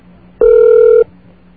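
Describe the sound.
A single steady telephone tone sounds as a call goes through to an automated answering machine: one even, unbroken beep of about half a second, alone against quiet line hiss.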